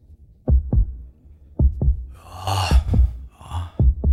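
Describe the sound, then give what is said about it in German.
Heartbeat sound effect at a calm, relaxed pace: four evenly spaced double thumps, low and punchy. Soft breathy noise swells between the middle beats. “Bei denen ist jetzt der Herzschlag noch entspannt, nicht?”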